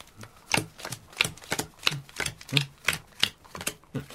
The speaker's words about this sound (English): Now, I deal us a hand each.